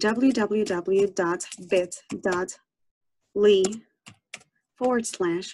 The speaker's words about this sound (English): Open up a browser and type